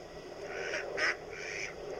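A duck quacks three times in quick succession. The nasal, mid-pitched calls are moderately loud, and the middle one is the sharpest and shortest, over a faint, low background hum.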